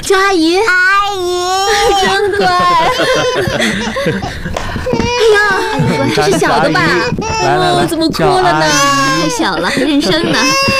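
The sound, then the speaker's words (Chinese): A small child cries in wavering, sobbing bursts while adults greet each other at a family reunion, the crying strongest near the start and then mixed into steady, lively adult talk and some laughter. “这是小的吧？ 来来来， 怎么哭了呢？太小了，还认生呢。”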